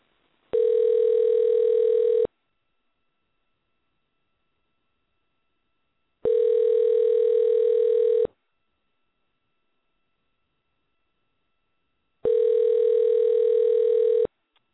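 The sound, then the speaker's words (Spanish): Ringing tone of an outgoing phone call placed to a boxing champion for an interview: three long, steady electronic tone bursts, each about two seconds, separated by silent gaps, with no voices. “Muy bien, vamos a marcar en este momento.”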